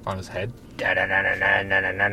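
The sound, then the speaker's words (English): A voice imitates a police siren with a rapid, repeated "da-da" chant held at a steady, fairly high pitch. A brief spoken question comes just before it. “It's the sound of the police.”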